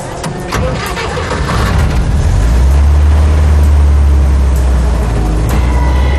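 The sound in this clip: A car engine starts: a couple of seconds of cranking, then it catches and settles into a loud, steady low rumble that continues to the end.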